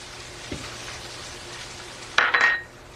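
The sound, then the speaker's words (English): Sliced meaty pieces hit a hot pan and set off a sudden burst of loud sizzling that fades within about half a second. A faint single knock comes earlier, over quiet background hiss. “And all you have to do is kind of slice off the pieces of it like that. And you use these pieces in cooking, just like that. Beautiful. I'm gonna add that to the pan.”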